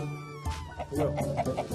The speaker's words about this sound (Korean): 닭하고 기러기하고. 시금치는 닭들도 좋아하는 메뉴.